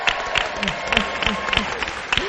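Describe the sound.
Applause rises for two doctors from a dental clinic sponsoring a live event. The clapping is steady and rhythmic, of moderate loudness, with a voice speaking over it.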